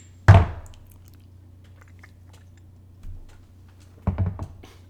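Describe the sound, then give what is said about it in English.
A tongue pop gives one sharp, bright click, followed by a couple of softer, wetter mouth sounds. “Oh, that was me with the tongue pop.”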